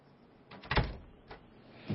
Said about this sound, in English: Thank you for coming. Shut the door.